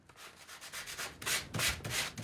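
Sandpaper is rubbed across the painted surface of new upholstery leather to distress it. Many rhythmic, raspy back-and-forth strokes start fairly soft and grow louder and harsher toward the end.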